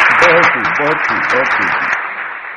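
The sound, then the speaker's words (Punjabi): Audience applause as a loud wash of clapping, with a voice talking over it, then fading away in the final moments. “ਤਾੜੀਆਂ ਬੇਕਾਬੂ ਹੋ ਗਏ ਵੱਜ ਰਹੀਆਂ ਨੇ”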